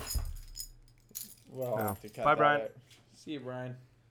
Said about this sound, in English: My car keys. Thanks. Here you go.